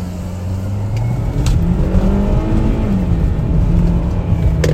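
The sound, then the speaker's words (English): A car accelerates hard in a street race after a stop-light party, its engine giving a loud, continuous roar that climbs in pitch and then holds high and steady, with no voices. “Why are you driving so fast? Why are you driving so fast? Relax. Okay, you want to race?”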